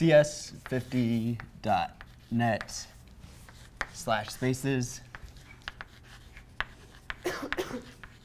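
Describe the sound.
Marker strokes on a board as a web address is written out, with short scratchy squeaks and taps falling in the pauses between a person speaking.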